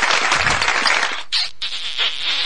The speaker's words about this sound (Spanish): al cual le quiero brindar estos últimos aplausos y agradecimientos